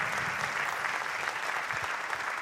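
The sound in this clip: Applause from a group of people being thanked at a community gathering: a steady, fairly soft patter of many hands clapping continuously with no voices over it.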